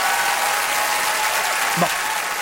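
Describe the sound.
Applause for the Polaris Prize-winning band Angine de Poitrine, a steady, loud roar of many hands clapping at an even level from start to finish.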